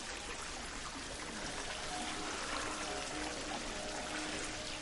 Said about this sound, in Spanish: En una cueva, Steve se baña en unas piscinas naturales. El agua emite luz.